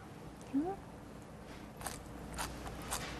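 Someone chews salted cabbage meant for kimchi, tasting it. A few moist, crunchy bites stand out over low background noise.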